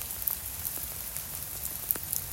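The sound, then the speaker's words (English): Rain dripping from a tree patters faintly and irregularly, with a few sharper drops standing out against a soft, steady background wash. “Oh, it's got dumped on by a load of rain from a tree there.”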